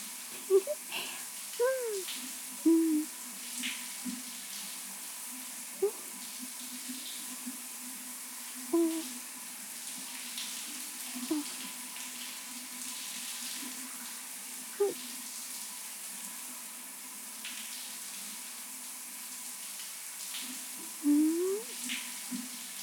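Water pouring while someone rinses off in a bath: a faint, continuous splashing hiss that runs evenly throughout.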